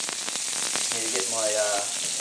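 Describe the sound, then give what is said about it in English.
Meat sizzles in a small frying pan in a campground kitchen, giving an even, bright frying hiss with quick crackles and pops spread across the short clip. “I have my little frying pan now. I'm in a kitchen at the campground where I'm just about to put my meat on. Oh, listen to that sizzle.”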